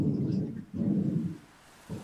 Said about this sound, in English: That's a plane. Not here. Oh, that's a plane.